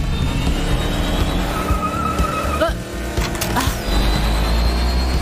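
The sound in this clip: A race car engine drones loudly as the car speeds toward the finish line of a qualifying session, a sustained whine with a brief tire squeal partway through.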